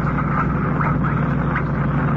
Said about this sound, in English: The car's coming up the lower grade.